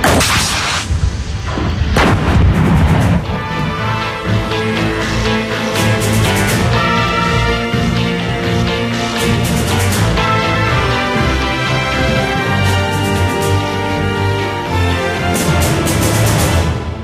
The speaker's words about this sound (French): Mise en place à la main de la charge. The charge goes in manually. Fermeture automatique de la culasse. The breech closes automatically. Et bien sûr, tir.